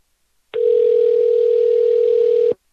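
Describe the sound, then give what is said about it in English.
A telephone dial tone sounds as a loud, steady single-pitched hum that starts abruptly, holds for about two seconds, then cuts off. “I'm dialing.”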